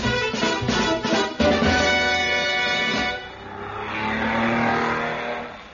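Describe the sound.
A racing car engine revs hard in a comedy race sound effect. Pulsing, buzzy bursts give way to a broad, steady roar that swells and then fades.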